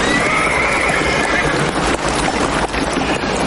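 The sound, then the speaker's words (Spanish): A white horse neighs, tied up in a Western film scene. A high, wavering whinny rises in the first second and a half over a loud, dense wash of background noise. “que lleva atado un caballo blanco”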